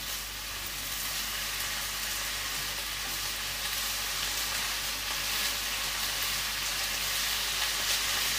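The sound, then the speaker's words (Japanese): Vegetables stir-fry in a pan over high heat, giving a loud, continuous crackling sizzle that holds steady throughout, with no talking. “ちょっと強火でガーッとやっちゃおうか。”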